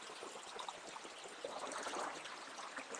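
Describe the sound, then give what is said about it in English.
Water flowing and descending into a deep turquoise pool at the base, a soft, continuous rushing and splashing wash with small surges, fairly faint and with no voices. “the water's slowly going along and it's descending down into a turquoise pool at the base”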